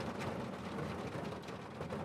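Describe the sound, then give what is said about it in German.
Steady rain falls in the Stonehenge car park, a soft, even hiss of drops that runs on faintly without pause. “Du schnappst dir deinen Schirm, da der Regen weiterhin in beständigen Tropfen fällt.”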